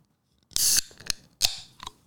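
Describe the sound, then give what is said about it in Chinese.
A can of Malaysian New Year drink cracks open with a sharp pop and a short fizzing hiss. A few lighter metallic clicks follow from the tab. “是刚刚回到家的时候打开来看，诶，怎么里面有一罐饮料？它就这样子放在那边一个礼拜了。所以我决定在今天的节目把它打开来喝。”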